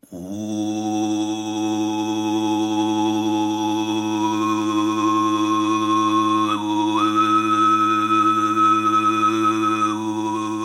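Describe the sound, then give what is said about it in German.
Mongolian throat singing: a deep, steady drone sung alone, with a bright, whistling overtone melody floating above it and stepping between a few held pitches. “Das, was ihr hier hört, ist kein hungriges Monster, sondern ein Sänger aus der Mongolei.”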